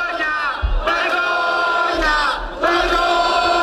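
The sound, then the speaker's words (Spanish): A protest crowd chants in Plaza Cataluña, Barcelona, during demonstrations over the housing crisis. Many voices shout in loud, rhythmic phrases, with brief dips between the chanted lines. “Esos son los principales lemas en las acampadas de Barcelona, Santiago, Sevilla y, entre otros puntos de España. Lo escuchamos en la Plaza Cataluña de Barcelona.”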